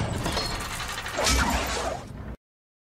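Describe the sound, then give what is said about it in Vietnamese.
A stone slab sinks slowly into the floor of a stone chamber as a hidden mechanism activates, opening a passage leading downward. It makes a continuous grinding, mechanical rumble that swells midway, then cuts off abruptly. “Khu vực phiến đá ở chính giữa, hơi chếch về hướng bắc của thạch thất, từ từ chìm xuống, lộ ra một lối đi xuống dưới.”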